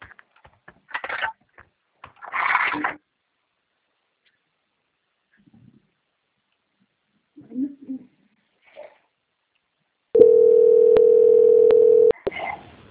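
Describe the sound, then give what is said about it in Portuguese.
Steady telephone line tone while a bank call is transferred, one unbroken low beep lasting about two seconds after brief snippets of voice and a few clicks. “Aguardo em linha que eu vou transferir o seu contato para o controle de qualidade que vai fazer a auditoria da sua ligação.”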